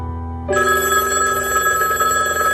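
A telephone bell rings with a steady, bright, continuous metallic trill. It starts abruptly after a brief quiet moment and sounds on its own without talk.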